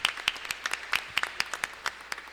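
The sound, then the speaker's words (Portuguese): Light applause from a religious community gathering welcoming its novices, a few people's sharp, distinct claps in an uneven rhythm, fairly faint. “Isso, uma salva de palmas para eles também.”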